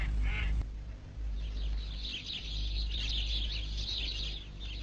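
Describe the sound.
Duck quacking in a cartoon: one short, nasal, fairly loud quack right at the start, with no voices over it.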